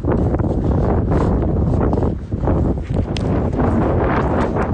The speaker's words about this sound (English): Now that is the first proper blast of Patagonian wind, and it sort of feels like we've kind of moved up to a different difficulty setting immediately.